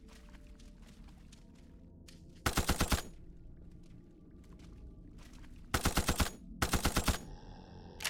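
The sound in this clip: An MP5 fires in burst mode in a video game: three short, loud, rapid bursts of automatic gunfire, each under a second long, separated by quieter stretches of faint game ambience.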